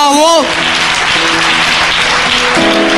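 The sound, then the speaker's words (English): A church audience claps in praise during a service, a loud, dense and sustained patter. A voice sounds briefly at the start, and steady held musical tones run beneath the clapping. “And clap for the Lamb of God.”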